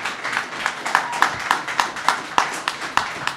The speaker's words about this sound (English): Everyone, please give it up for Joe Gomez.